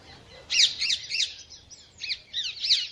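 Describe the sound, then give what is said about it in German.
Rose-ringed parakeets squawk at a city cemetery in Cologne, giving a rapid series of harsh, shrill, high-pitched calls in short clustered bursts. Loud calls alternate with brief quieter gaps over a faint low background hum. “Still ist es fast nie an ihrem Grab auf dem Kölner Zentralfriedhof Melaten, wo Dutzende Halsbandsittiche unterwegs sind.”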